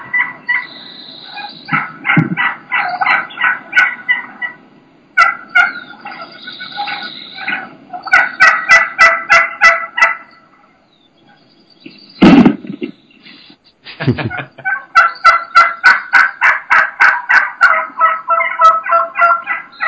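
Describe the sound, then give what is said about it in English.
Wild turkeys gobble repeatedly at plastic decoys. Loud, rattling bursts come in quick succession, and a couple of sharp knocks cut in near the end, with no voices. “Hear the decoys just getting hammered.”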